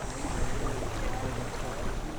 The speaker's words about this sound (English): Soft wind, rushing water, buzzing flies. To the anglers of the Au Sable River, this is home and heaven.